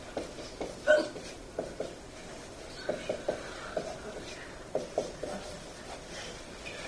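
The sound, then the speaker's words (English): Marker strokes drawing letters on a board: short scratchy squeaks in irregular bursts, separated by brief pauses, fairly faint. “I'm going to step away from the microphone for a second and draw the R's.”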